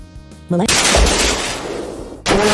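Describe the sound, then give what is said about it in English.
A fire breath attack in a video game: a loud, roaring burst of noise about two seconds long, cutting in between stretches of game music. “Landler used fire breath”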